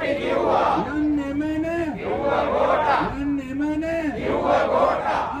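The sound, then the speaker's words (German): Protesters shout together in the streets of Sri Lanka, their loud chanting rising and falling in repeated waves that blend into a dense crowd roar. “Auch gestern, also einen Tag vor der Wahl des neuen Staatsoberhaupts, da sind ja die Menschen wieder auf die Straße gegangen. Und du hast uns eine Aufnahme von dort mitgebracht.”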